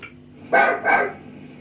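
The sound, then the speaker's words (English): A dog barks twice, two loud, full-throated woofs in quick succession with a short gap between them, standing out clearly against a quiet background. “The barking here is quite extraordinary, actually.”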